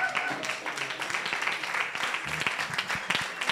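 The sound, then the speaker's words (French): Audience applause in a standing ovation, a dense, even patter of many hands clapping, fairly faint and steady throughout. “Alors, il se trouve, on peut faire standing ovation, c'est vrai.”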